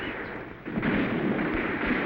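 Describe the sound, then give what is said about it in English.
Cannon fire on a battlefield, heard as a dense, continuous rumbling roar that jumps in loudness partway through and stays heavy to the end. “I thought you silenced that cannon. So did I, sir.”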